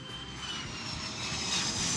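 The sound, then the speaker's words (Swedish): Airplane engine roar at Arlanda airport as a plane comes in to land: a steady, broad jet rumble with a hissy high end that swells slightly louder in the final half second. “På Arlanda 1987 är det dags för nästa steg. Chuck Berry ska landa”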